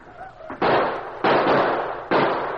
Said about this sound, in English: For half an hour, they blazed away into the night. They reloaded and fired again and again, surrounding the post with a wall of hot lead.